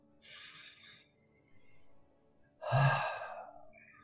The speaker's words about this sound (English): okay, take a deep breath.